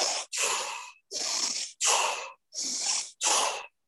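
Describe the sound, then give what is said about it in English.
A person demonstrates rapid deep breathing with six loud, forceful breath bursts in a quick, even rhythm separated by brief silent gaps; no talking is heard. “It's like three cycles, 30 breaths, but you're breathing really fast. So it would be like,”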